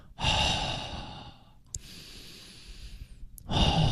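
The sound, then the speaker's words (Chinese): Deep breathing during a breathing exercise. Long, loud, airy breaths are drawn and released, with a quieter stretch between them and another strong breath at the end. “如果你到极致的时候吸气，然后到末端开始尝试呼气”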